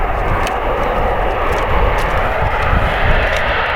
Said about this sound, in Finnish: Ja se on Tornado.